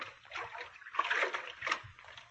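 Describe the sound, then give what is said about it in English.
Water splashes as a man wades into a river, a few faint, uneven sloshing bursts rising and falling. “He's sneaking down to the riverbank now. And I know what he's after. He's not worried about being caught. Not with the whole town up at the jail. He's getting into the water.”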